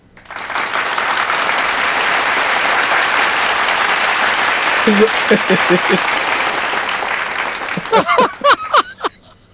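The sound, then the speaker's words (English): Audience applause roars steadily for about eight seconds, dense and loud, with shouts and whoops rising over the clapping toward the end. “You made a tear come to my eye with that applause.”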